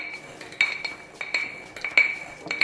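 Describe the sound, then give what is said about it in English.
Nuts being muddled in a glass jar for a sticky date espresso martini liqueur, a few bright ringing clinks of the muddler against the glass amid softer knocks, in a steady rhythm. “just easier to get the nuts from the tray into the jar. Okay, once we've done that, we're just gonna muddle these down. Basically, we just wanna crush them all up.”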